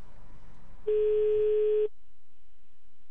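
A telephone line tone sounds while a call is placed: one steady, clear beep lasting about a second, then quiet, with faint low noise before it and no talk.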